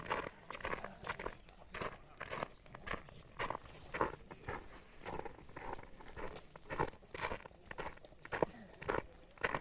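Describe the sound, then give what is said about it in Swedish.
Footsteps walking off the path into a forest: many faint, soft steps in a steady walking rhythm, continuing throughout. “Jag viker av och går in i skogen här.”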